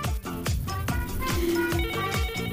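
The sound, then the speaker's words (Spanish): A telephone rings with an incoming call to a taxi call-in line, playing a bright, repeating electronic ringtone melody that sounds loud and alone. “Vamos a atender la siguiente llamada.”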